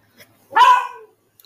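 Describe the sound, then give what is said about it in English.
A dog barks once in the background, a short, fairly loud bark with no talk around it and only faint small noises before and after. “Sorry for the dogs in the background.”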